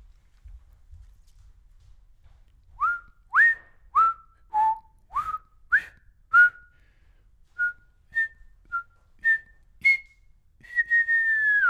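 A person whistles a tune of many short, bright notes in a quick rhythm, then ends on a longer held note that drifts slightly downward. The whistling is clear and alone.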